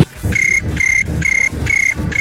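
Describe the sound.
Cricket chirping in repeated, evenly spaced trilled bursts, each a steady high, bright buzzing tone with a rapid pulsing texture. About four full chirps and the start of a fifth come through clearly over low background noise, with no voices.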